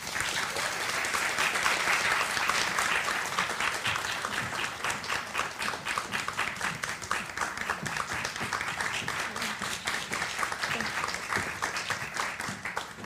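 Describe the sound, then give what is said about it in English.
An audience at a Longwood Gardens evening event applauds to welcome speakers Camille Dungy and Aber Lee. Many hands clap in a sustained, dense patter that swells slightly at first, then carries on steadily throughout. “Let's have a big hand for Camille Dungy and Aber Lee.”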